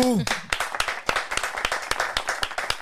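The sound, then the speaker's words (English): Audience clapping welcomes guests at the start of a recorded show. After a brief voice, many distinct, fairly rhythmic claps ring out from what sounds like a small group. “Ladies and gentlemen, big round of applause.”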